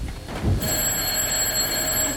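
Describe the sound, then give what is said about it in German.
A telephone rings at the start of a stage play. A bright, sustained ringing tone begins about half a second in and holds steadily to the end. “Gerade schon am Anfang des Stücks läutet das Telefon.”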